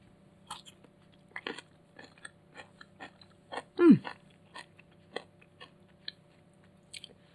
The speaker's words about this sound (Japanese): じゃあ出来上がったものを食べたいと思います。まず、菜の花のじゃこあえです。